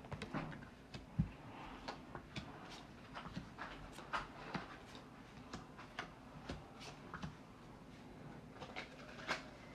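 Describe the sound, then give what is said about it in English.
Tarot cards being shuffled: many faint, irregular taps and flicks of card stock follow one another quietly throughout, with no talking. “Just shuffling the cards.”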